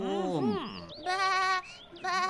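A sheep on a farm bleats three times: a long wavering call, then a shorter steady one, then a brief final bleat, each clear and fairly loud with short gaps between.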